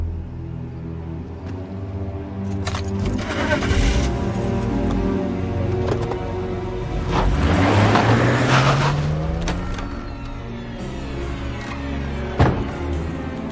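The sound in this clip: Car engine running as the vehicle is driven: a steady motor drone that swells as the engine pitch climbs steadily upward mid-clip, then settles, with a sharp knock near the end and no voices.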